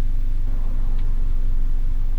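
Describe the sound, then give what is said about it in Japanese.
Steady low engine rumble heard from inside a car while it is being driven, a loud, even drone with no breaks or change in pitch. “アウトドアで収録するっていうのは、2回目ですかね。今回は車を運転中と。”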